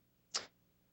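A selfie stick striking a person, a single sharp, bright smack that cuts off quickly and stands alone against near silence.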